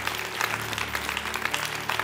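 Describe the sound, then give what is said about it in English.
Applause from a church audience, a dense, even patter of clapping throughout, with a low sustained tone underneath. “If you've never prayed that prayer, man, welcome to the family. Amen. Give them a big hand.”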